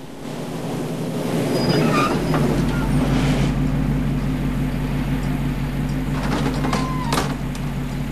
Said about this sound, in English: Now a yellow school bus, with a luggage rack on its curved roof, chugs along a road up the hills overlooking San Francisco.